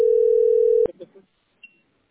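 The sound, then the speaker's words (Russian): A telephone dial tone hums steady and loud during a call to a heating utility, then a sharp click cuts it off and a few faint, brief sounds follow. “Да, в этот теплоэнерго звоню.”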